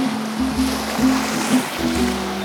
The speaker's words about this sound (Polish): Jest piątek, 18 dzień czerwca. Tak dziś brzmi morze.